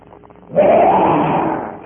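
A lion roars once, a loud, rough, sustained roar that bursts in abruptly after a faint, quiet opening and holds steady before easing slightly at the end.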